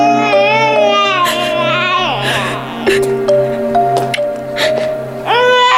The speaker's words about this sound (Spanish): No ha sido nada, bebé. No llores.